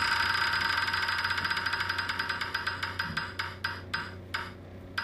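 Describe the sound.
A prize wheel spun to pick an NFL team gives off rapid, regular ticks that gradually spread out and slow as the wheel winds down, with a steady low hum underneath.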